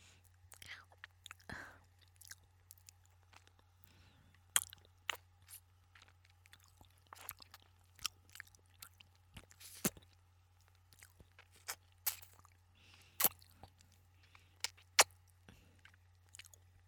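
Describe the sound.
Chewing crayfish from a barbecue restaurant: many sharp, irregular crunches and wet clicks over a steady low hum, mostly quiet with a few louder bites.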